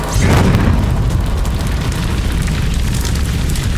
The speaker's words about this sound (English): A veritable wall of flame.